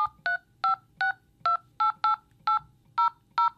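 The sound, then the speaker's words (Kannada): Touch-tone telephone keypad beeps as someone dials a number to make a call: ten short, clear, evenly spaced tones of varying pitch, heard alone. “ಈಗ ಸದ್ಯಕ್ಕೆ ಶಂಕರಿಗೆ phone ಹಚ್ತೇನೆ, ಏನಂತಾನೋ ನೋಡೋಣ.”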